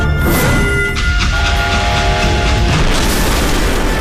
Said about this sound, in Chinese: 一声巨响，列车车头脱离轨道，侧翻着向前冲出一段，后面的列车扭七八歪的挤作一团。